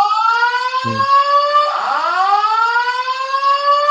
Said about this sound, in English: Fire alarm's going off. Right. I might have to leave for a second.